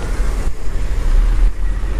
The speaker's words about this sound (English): Is that car coming or not?